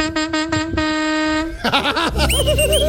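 A horn sound effect blares during a live cumbia show: four short toots and then one longer sustained honk, all loud and steady in pitch, before a dense burst of mixed sound takes over.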